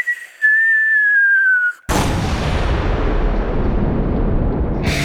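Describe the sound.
A falling bomb whistle in a First World War setting: a single high tone gliding slowly downward, then cut off by a loud explosion that becomes a long, broad rumbling roar.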